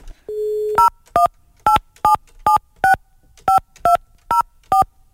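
A phone is being dialed: a short steady dial tone gives way to ten brief keypad beeps in a slightly uneven rhythm, each a crisp electronic double tone.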